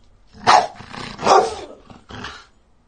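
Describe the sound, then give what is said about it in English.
A dog gives a short run of a few loud, gruff barks, with brief gaps between them and no talking over them. “One more time. One more bark.”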